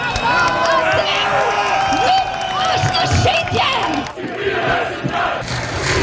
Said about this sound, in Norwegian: Folk protesterer, sånn høres det ut